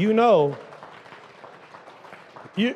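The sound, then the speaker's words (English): Soft, scattered hand clapping from a church audience fills the gap between stretches of a man talking, which open and close the moment. “No, that is a hand clap moment right there”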